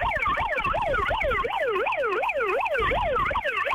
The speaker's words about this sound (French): Bon, on met la sirène un petit coup là, avant de partir. Un petit coup de sirène, ouais.